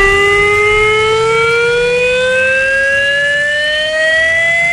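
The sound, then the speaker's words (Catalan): A civil defence confinement siren sounds for a chemical accident drill in the Barcelona area: a loud, continuous wailing tone with stacked harmonics, steady throughout and slowly edging upward in pitch, with no voices. “Demà a les 11 del matí sonarà això a 16 pobles del Barcelonès, el Baix Llobregat i el Vallès Occidental.”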